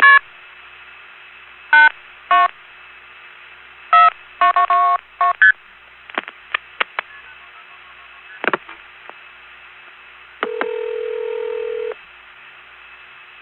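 A touch-tone telephone dials a number: a few spaced beeps, then a quick cluster of tones, followed by scattered clicks and a longer steady tone near the end.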